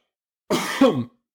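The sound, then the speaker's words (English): A single harsh cough with a throat-clearing rasp, heard alone. It breaks into two quick bursts, the second slightly stronger, then stops dead. “sorry, I had to cough”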